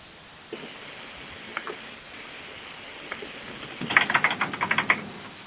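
Typing on a computer keyboard to look something up: a few isolated taps spaced apart, then a quick run of rapid clicking keystrokes toward the end.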